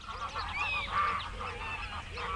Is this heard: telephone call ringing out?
no